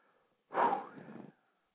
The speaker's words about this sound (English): Just take a deep breath.